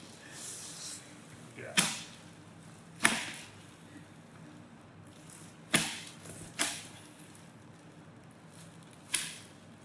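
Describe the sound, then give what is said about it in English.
Large garden shears crunch through the rib bones of an animal's chest during a post-mortem: five sharp, crisp snaps, irregularly spaced, each standing alone over a faint, quiet background. “so that's the sound of the garden shears cutting open the bones in the chest.”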